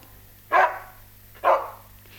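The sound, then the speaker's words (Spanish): A dog barks twice, two short loud barks about a second apart, with only a faint low hum between them. “No escuchó a su perro que le ladró para despedirlo a la salida de la casa.”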